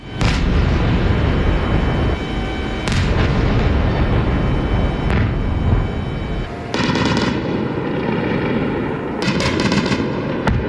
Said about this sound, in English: This was the sound of the attacks and anti-aircraft over Kyiv in the early hours of the morning.